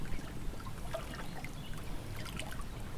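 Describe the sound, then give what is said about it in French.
Spring water flows through a small stream dam that replaced an older cement barrage. The rushing trickle is steady and continuous, with no talk over it. “tu vois que ça fait quand même un débit d'eau intéressant. Hein. Les sources donnent quand même pas mal.”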